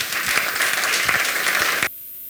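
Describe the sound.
Applause from an audience welcoming a guest preacher to a church gathering: steady, dense clapping that cuts off abruptly just before the end.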